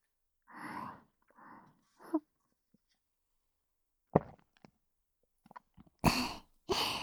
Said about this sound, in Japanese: だったら君が一滴でも飲みたくなるように美味しそうに飲んでやろう。